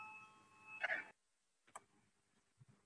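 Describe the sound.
A parliament chairman's bell rings before a vote. A bright tonal ring sounds from the start and cuts off abruptly after about a second, followed by a few faint clicks and near quiet.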